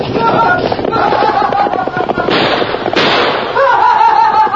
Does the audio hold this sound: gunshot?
yes